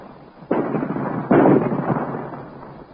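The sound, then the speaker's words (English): Two heavy explosive blasts from weapon fire split a rock, each bursting in sharply and rumbling on as a roar, the second louder and longer. “Look, the rock is splitting. That's lucky. The rock is destroyed.”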